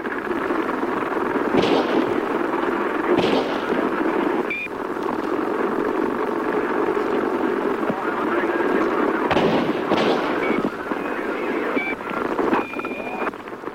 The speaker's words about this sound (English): the recording of a police officer's radio had been left open and the audio got recorded. And if you listen to it, it does sound like there's more than three shots.